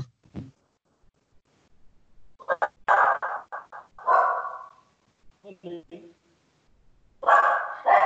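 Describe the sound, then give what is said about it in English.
A female pet dog barks in short bursts during a conversation, with a cluster of loud barks and a final burst near the end. People talk in between. “One moment, that's my dog.”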